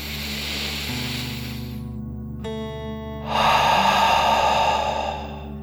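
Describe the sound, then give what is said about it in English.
A deep breath in and out during a guided relaxation exercise: a soft, breathy rush that swells louder in the second half, over steady sustained musical tones. “Deep breath in and out.”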